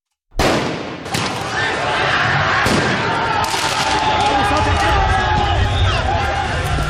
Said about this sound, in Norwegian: Dette lyden av omfattende fotballbråk i Frankrike i går kveld og i natt.